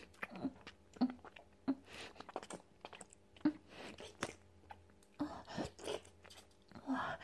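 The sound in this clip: Chewing on a large meat bun, with soft repeated bites and moist mouth sounds in an irregular rhythm, faint and without talk.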